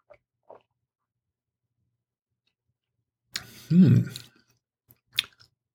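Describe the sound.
Someone tastes a peach-scented wine with hints of melon and pear, giving a short airy sip and then a louder slurping swish in the mouth. A couple of faint clicks sound before it and a small click follows.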